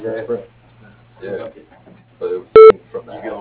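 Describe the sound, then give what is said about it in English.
A single short, loud electronic beep from an answering machine, a steady tone with stacked harmonics, set between stretches of a recorded voice talking over a low, constant hum. “If you leave your name and number after the tone, we'll return your call as soon as possible.”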